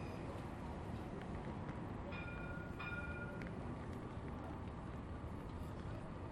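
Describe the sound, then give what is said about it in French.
A tram at a city tram stop: a steady, broad rumble from the vehicle runs throughout, and brief high ringing tones sound in the middle, all fairly faint. “Arrêtez-vous à l'arrêt de tram Beria, le magasin.”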